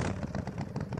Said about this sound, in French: Parce que là, c'est le son d'une Harley.